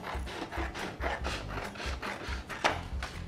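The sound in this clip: Rhythmic, scratchy strokes as the excess top of a printed paper template is trimmed away, many even rasping cuts repeating at a steady pace, moderately quiet and alone.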